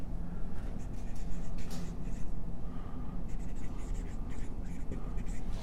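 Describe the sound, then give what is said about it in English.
Hand-drawing of a diagram of muscle thin filaments, heard as continuous soft scratching and scraping strokes of a pen across a surface, fairly even in level throughout. “I'll try to draw it like them.”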